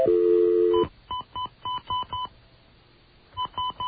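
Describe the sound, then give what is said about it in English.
Telephone keypad dialing tones on a restricted line: a long steady tone gives way to a quick run of short, evenly spaced beeps. After a brief pause, a few more beeps follow. “I was dialing out on the restricted line.”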